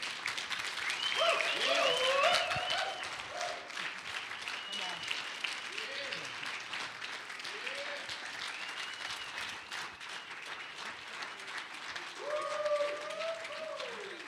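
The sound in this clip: A church audience applauds to welcome guests during a morning service: steady, dense clapping that lasts throughout, swelling at the start and again near the end, with voices and cheers rising over it.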